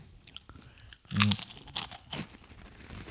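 Crunchy snack being bitten and chewed, a sharp crisp bite followed by a few brittle crunches and softer chewing noises at low level, with no talking over them.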